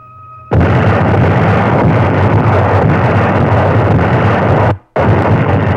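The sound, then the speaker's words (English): Allied artillery guns open fire at night along the Italian front in May 1944, a loud, continuous rumbling roar of massed gunfire that drops out briefly near the end before resuming. “All along the front, German-dominated heights were under the muzzles of Allied guns. At 11 p.m., they went into action.”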